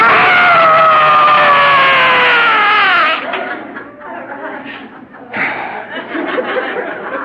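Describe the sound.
A person screams in a car after leaving a family dinner: a loud, sustained, high scream lasting about three seconds with pitch slowly sliding downward, followed by quieter, broken voiced sounds.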